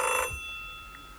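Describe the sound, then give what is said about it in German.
A telephone rings in a brief, bright electronic burst at the start, then steady faint tones hang on after it. “Telefon. Ja, ich gehe nicht ran.”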